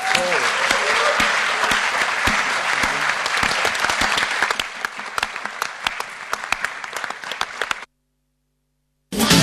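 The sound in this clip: Audience applause for panel members after a discussion on the rainbow community, dense steady clapping that gradually thins, drops to silence, then briefly returns at the end.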